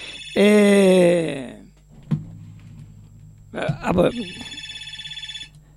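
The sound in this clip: A telephone rings as a listener calls in to a radio station. A loud tonal burst comes first, then a steady, pulsing electronic ring over a low hum.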